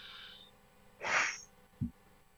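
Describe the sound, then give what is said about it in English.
One breathy rush as a person takes a breath, rising out of near-silence and fading quickly. “Take a breath.”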